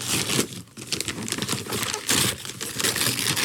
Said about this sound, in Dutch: In de box. Kijk eens. Nou, ik ga hem gelijk uitpakken hoor.